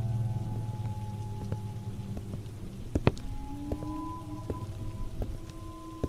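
Steady rain falling at night, a constant soft hiss of drops on surfaces with scattered louder individual drops and a faint low hum beneath, no voices.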